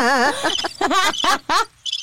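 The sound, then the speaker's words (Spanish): A cricket chirping sound effect: a run of short, warbling, trilled chirps of uneven length with gaps between them, ending with a brief, high, buzzy chirp. “Póngame los grillos, póngame los grillos.”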